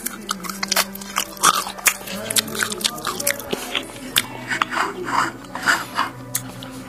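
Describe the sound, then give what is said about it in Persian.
Crisp, irregular crunching as homemade fried chips are bitten and chewed, with many sharp dry snaps and rasping chews following one another closely at a steady, fairly loud level. “من یکی از چیپس های خودم میخورم صداشو گوش کنید.”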